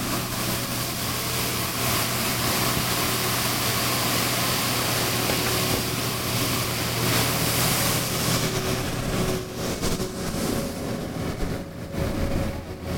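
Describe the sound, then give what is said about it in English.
A Roman street sweeper works in Campo dei Fiori square, Rome, with a steady, loud mechanical roar, a low engine hum and a broad brushing hiss that thins slightly toward the end. “So what you just heard was a Roman street sweeper.”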